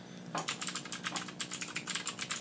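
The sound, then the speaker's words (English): Computer keyboard typing with a rapid, steady click-clack of many keystrokes in quick succession, crisp and fairly quiet, without any talk. “That click clacking actually sounds like Strong Bad answering emails.”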